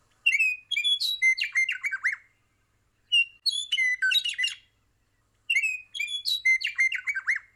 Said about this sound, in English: That is the song of the Western Meadowlark, a beautiful songbird with a bright yellow belly and a dark black V shape on its chest.